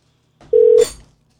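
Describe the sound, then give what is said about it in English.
Telephone tone while a call is dialed: one steady mid-pitched beep of about a third of a second, followed by a short burst of hiss, heard alone. “We're going to make that call right now and show you exactly how to do that. So here we go. Let's see if we can't get that office on the line.”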